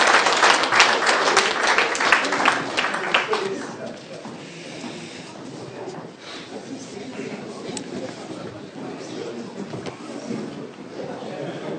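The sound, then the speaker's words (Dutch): Applause for newly sworn-in duo committee members: loud, dense clapping for the first few seconds, then fading into a quieter murmur with scattered claps. “Dan mag ik u feliciteren met uw duo-commissieleden. En dan mag u wel applaudisseren.”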